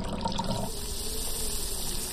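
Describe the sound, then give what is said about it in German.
Water is poured carefully into an opening, making a soft, steady liquid wash. It is slightly fuller in the first moment, then stays even. “Dann kann ich das Wasser besser in die Öffnung schütten. Versuchen wir es mal ganz vorsichtig, erst mit ein paar Tropfen.”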